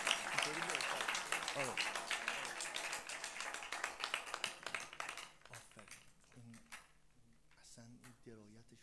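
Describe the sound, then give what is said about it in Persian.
An audience claps during a recited devotional poem. Dense, brisk clapping runs for about five seconds and then thins out, with a voice speaking over it throughout. “به همان کس که به میزان خدا هست محک هر کجا سفره عشق است حسین است نمک یا همه دست بزنید یا هیچ دست نزنید”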